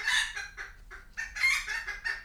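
Chickens cluck in a rapid string of short, bright bursts, one after another with brief pauses between them, and no voices.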